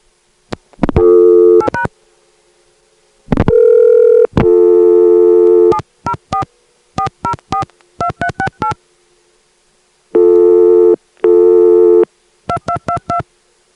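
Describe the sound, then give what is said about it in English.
Telephone dialing tones keyed into the Atlanta phone network: many short touch-tone bursts in quick clusters, broken by a few longer held tones and brief silences, with no voices. “dial that into it, and then Atlanta 2 will give us the unauthorized location recording. Notice that it is a uh, non-electromechanical, that is digital recording, and that it's not on carrier.”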